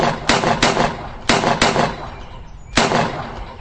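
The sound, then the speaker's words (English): Several sharp gunshots ring out in a western-style comedy sketch. Each is a loud, crisp crack set apart by uneven gaps, with two quick pairs followed by a lone final shot. “I count 6 shots, reporter.”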